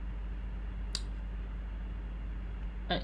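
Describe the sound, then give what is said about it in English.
Two sharp computer mouse clicks, about two seconds apart, sound over a steady low electrical hum. “I didn't mean to click that. Hold on. Why is it doing this?”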